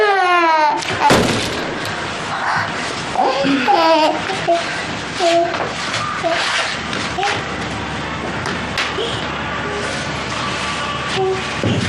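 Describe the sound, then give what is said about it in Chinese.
A baby cries loudly in wavering wails over a dense, noisy background rumble that continues throughout. “妈妈一会儿就回来了 啊！不哭了，不哭了。”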